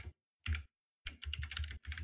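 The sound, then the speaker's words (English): Keystrokes on a computer keyboard as someone types an entry during a game: a short burst of clicks, a brief pause, then a quick run of soft, rapid taps, all faint. “I am doing my best here. I forget how to type. Do not send a thing. Oh yeah, you gotta press shift and enter.”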